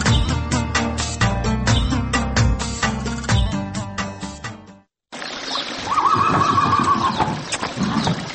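A fast village racehorse gives a loud, long, wavering whinny. It follows a stretch of rhythmic music that cuts out to a moment of silence just before the call.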